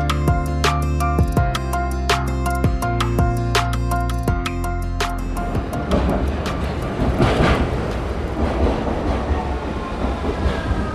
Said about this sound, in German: Ja, und das ist jetzt die U3 Richtung Otterkring. Da steigen wir jetzt ein und fahren in die Kendlerstraße.